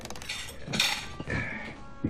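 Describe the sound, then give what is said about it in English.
Dishes being washed give off clinks and clatters of crockery and cutlery, a few bright knocks spread across a soft background. “At least he can do is the dishes.”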